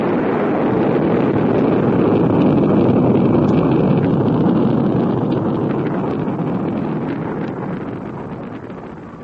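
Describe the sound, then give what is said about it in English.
A sleek white spacecraft interceptor blasts off with a broad, rushing roar. The rumble is loud and steady at first, then gradually fades toward the end, with no voices. “Buddy and John board the Solaris, and as Mara and Galen watch from the Valaria Tracking Center, the sleek, white SET interceptor blasts off for Starlab.”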